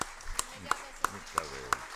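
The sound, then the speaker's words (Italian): Hand claps at a council meeting welcoming a new councillor, a few evenly spaced, rather faint claps in a steady rhythm, with people talking quietly underneath. “E come consuetudine accogliamo con un applauso il neo consigliere”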